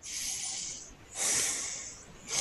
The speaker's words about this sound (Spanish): Ahora respira profundamente por la nariz.